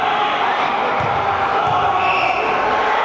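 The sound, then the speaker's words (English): A student-section crowd roars during free throws at a college basketball game, making a dense, loud wall of shouting and cheering that holds steady throughout. “A lot of noise being made by the student section, and he's able to ignore it, make both free throws”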